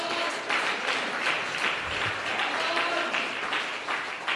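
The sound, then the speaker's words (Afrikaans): An audience claps in praise at a revival service in a correctional centre, with dense, sustained applause that stays steady and fairly loud throughout. “Ah, prys die Here, gee maar 'n klap.”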